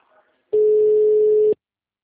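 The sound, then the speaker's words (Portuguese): A single steady ringback tone sounds on an outgoing telephone call, lasting about one second at an even, moderately loud level, with no voices over it. “Já vamos ver se ele vai atender, peraí. Tá chamando, coloca no mudo.”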